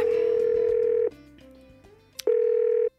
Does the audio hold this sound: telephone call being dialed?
yes